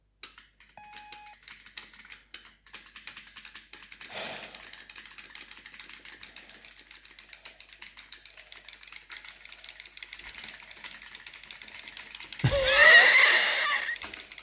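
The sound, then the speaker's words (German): Rapid button mashing on a controller during a swimming race video game: a dense, continuous stream of quick clicks that goes on throughout, with a louder noisy burst near the end. “Man drückt wie verrückt, aber sie werden nicht wirklich schneller, ne?”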